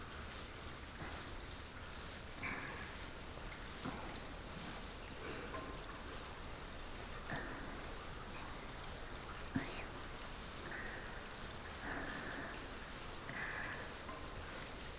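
Hair being washed with water in an ASMR setting: soft, continuous swishing and sloshing of water, quiet and close, with a few slightly louder wet pulses scattered through the steady texture.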